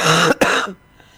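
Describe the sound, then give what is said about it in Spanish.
A person coughs in two loud, harsh bursts separated by a brief gap, then falls quiet. “Perdón, pero voy a toser.”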